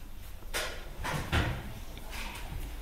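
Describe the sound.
A book is opened to a page, making a few soft rustling swishes and dull thumps of cover and paper that come at uneven intervals.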